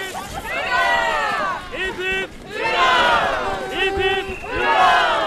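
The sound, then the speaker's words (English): A crowd of a couple thousand extremely happy Norwegians cheers at a celebration in Longyearbyen on Svalbard, with loud, sustained roaring and shouting that swells in a few waves. “This is the sound of a couple thousand extremely happy Norwegians.”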